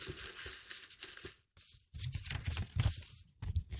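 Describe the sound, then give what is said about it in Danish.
Paper rustles and crinkles as a slip is drawn from a pile of submitted notes, in a few soft crackling bursts with a short pause midway. “Jeg trekker første lapp.”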